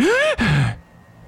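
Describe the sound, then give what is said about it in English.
Deep breaths pushed out with voice: two loud, sighing exhales with a falling pitch, the second lower and rougher. A quieter breathy tail follows. “Fast breaths, quick breaths, and what'd you say, deep exhales? Deep exhales, deep inhales, just do it a bunch, and then let's see what happens. All right, do it a bunch.”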